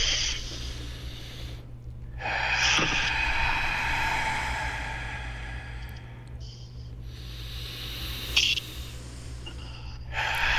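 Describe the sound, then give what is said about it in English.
Deep breathing during a guided relaxation exercise, drawn in through the nose and let out again. A long, airy inhale lasting several seconds is followed by sustained breathy exhales, with no talk. “And on the exhale, just let absolutely everything go. All right, let's do it. In through the nose in 3, 2, 1.”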